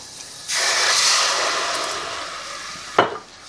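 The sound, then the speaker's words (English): A loud sizzling hiss bursts up as white wine is poured into hot olive oil and onions, fading slowly, with a brief thud near the end. “I put some white wine now over here.”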